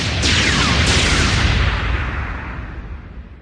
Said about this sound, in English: She pulls up the controls and begins to fire.